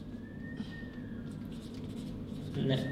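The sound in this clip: Writing by hand, a thin squeaky stroke drawn out for about a second, followed by softer faint scratching.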